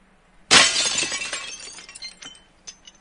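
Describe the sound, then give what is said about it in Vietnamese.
Window glass shatters from a gunshot in one sudden loud crash, followed by a trail of fading tinkles and clinks as shards fall to the ground. “một tiếng nổ vang giòn đánh vỡ vẻ yên lặng trong biệt thự, cửa sổ bị bắn vỡ rơi đầy trên mặt đất, thành âm chói tai.”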